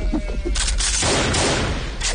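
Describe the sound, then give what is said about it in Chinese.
Gunfire from a pair of pistols aimed at flying birds on a military drill ground: a few loud, sharp cracks in close succession over a steady, noisy background. “张成文斜睨着何国良，拔出双枪，抬手两枪，两只飞鸟应声落地。”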